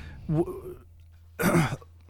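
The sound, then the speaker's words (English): Someone clears a frog from their throat in two short raspy bursts, the second longer and harsher, with a short quiet gap between them. No words are spoken. “let me get the frog out my throat there”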